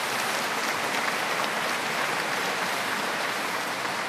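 An audience at the Knock shrine applauds to welcome a visiting group from Philadelphia. Dense, even clapping continues at a steady, moderate level for the whole stretch, with no voices above it.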